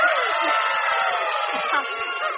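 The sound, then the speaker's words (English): Children in a live Saturday-morning TV studio audience cheer and shriek in a bright, high-pitched, sustained burst of noise that drops slightly toward the end. “We've got a great bunch of kids here. Who are obviously prepared to cheer at anything I say.”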